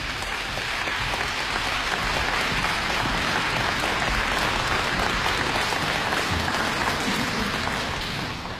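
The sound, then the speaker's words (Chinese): An audience at an orchestral concert applauds to welcome the conductor. Dense, even clapping holds at a steady level for several seconds and eases slightly at the very end. “现在掌声有请指挥家汤姆海。”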